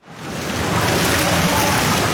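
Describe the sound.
Continuous splashing and churning water from a group of about ten young swimmers doing lap training in an indoor pool, a dense, steady wash of noise with no distinct strokes standing out.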